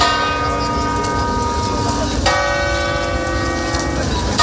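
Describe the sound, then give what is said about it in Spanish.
Church bells toll in mourning for the death of a pope, ringing from cathedrals, parishes and churches. The ringing is dense, layered and continuous at an even loudness, with a fresh strike about halfway through. “Las campanas de catedrales, parroquias e iglesias se han tocado en señal de luto”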